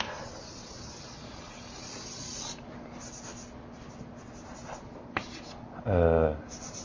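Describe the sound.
Scratchy strokes of writing on a board while a graph is plotted, coming as several intermittent hissing scrapes of varying length, with a brief louder squeak near the end.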